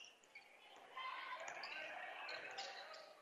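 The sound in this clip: A basketball is dribbled during a high school boys' game, quick repeated bounces heard beneath a commentator calling the play.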